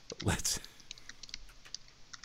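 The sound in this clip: Faint, rapid clicks of typing on a computer keyboard, many light keystrokes in an uneven run, with a brief louder sound near the start.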